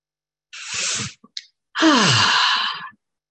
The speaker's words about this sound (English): So take that moment as you take a couple of nice, easy breaths.